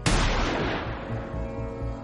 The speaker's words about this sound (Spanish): Le dispara en la cabeza.